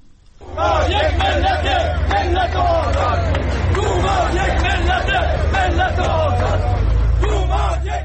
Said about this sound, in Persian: این صدای بازنشستگان تأمین اجتماعی است در اهواز که برای بهبود وضعیت معیشتی تجمع کرده بودند و در حمایت از توماج صالحی شعار سر دادند.